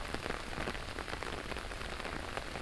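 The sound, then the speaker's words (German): Steady rain falling over a city, with a dense, continuous patter of drops on surfaces, even in level and fairly faint, and no voices. “Tagelang schon der Regen über der Stadt”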